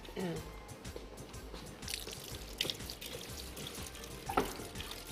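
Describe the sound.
Running water pours as hair is washed during a haircut, a steady hiss and splash with faint drips, while voices talk over it.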